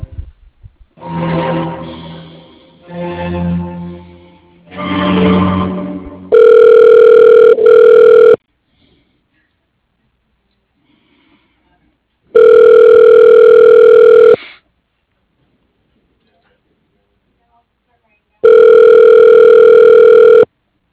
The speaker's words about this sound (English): I can take a message or transfer you to his voicemail